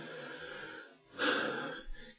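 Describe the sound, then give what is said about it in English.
A deep, airy breath, soft and hissing at first, then swelling into a fuller, louder draw of air before tapering off. No speech. “Take a deep breath.”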